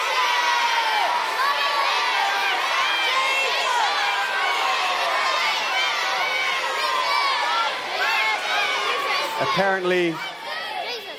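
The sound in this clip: Children shout answers all at once about the best thing about Christmas at a camp gathering, making a loud, steady, indistinguishable rabble of overlapping high voices and whoops that dips briefly near the end.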